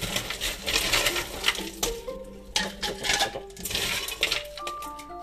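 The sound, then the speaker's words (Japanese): Ice cubes drop into a filter-in bottle while masala chai iced tea is being made, giving many irregular glassy clinks and knocks with some ringing tones, with no talk. “フィルターインボトルの中に氷をじゃんじゃんと落としていきます”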